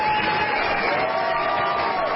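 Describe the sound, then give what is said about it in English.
Bipartisan cheers and applause from members of the US House of Representatives on the chamber floor for Congresswoman Gabrielle Giffords' return; a continuous, loud wash of clapping and crowd noise. “Bipartisan cheers and applause for Arizona Congresswoman Gabrielle Giffords, who returned to the floor of the House for the first time since being shot in the head in Tucson back in January.”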